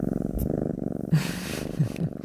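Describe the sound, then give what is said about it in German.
A male cat purring, a steady low rhythmic rumble that pulses evenly throughout. “Also ja, das war mein Kater, dem ging's ja ganz gut”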